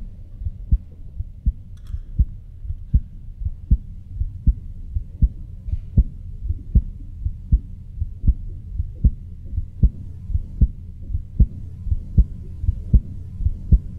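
A woman's heartbeat, picked up by a microphone held about six inches in front of her chest in a studio, gives many deep, strong thumps in a steady, even rhythm over a low hum.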